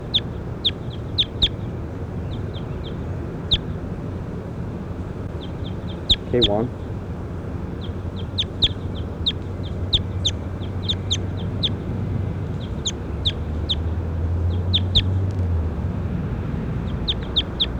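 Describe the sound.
Bird chirps: short, high calls repeat in small clusters all the way through, over a steady low background rumble.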